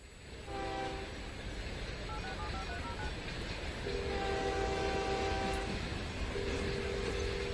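Train at a station before boarding: a low, steady rumble carries throughout while a few sustained tonal horn-like blasts sound over it, the longer ones in the second half.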